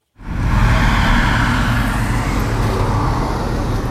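Tractor engines roar as the machines race a Traktrial course of steep hills, mud and marked gates at the tank range near Pístov, close to Jihlava. A loud, dense rumble starts abruptly and stays steady throughout.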